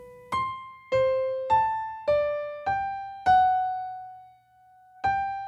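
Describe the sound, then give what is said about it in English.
A high piano line beginning on B and moving outside the key, played as seven separate bright notes at a steady pace, each one ringing and decaying, with a short pause before the last. “Then the actual piano part plays much higher. It starts on a B and then immediately moves outside of the key.”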